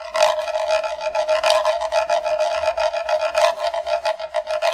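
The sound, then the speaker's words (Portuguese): Rasping scrapes from a macumba, a wooden scraper instrument similar to a reco-reco, sound in many quick strokes with a steady ringing tone running underneath, fairly loud and played alone without voices. “Mas aqui eu estou falando do instrumento musical chamado macumba. Era um pedaço de madeira parecido com reco-reco que produzia um som assim, ó.”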